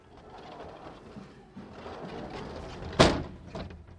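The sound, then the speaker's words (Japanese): Old wooden sliding door at a station entrance, dating from a 1933 station building, rolling open with a low scraping rumble, then a sharp wooden knock and a lighter second knock soon after. “入り口も木製の引き戸のままです。”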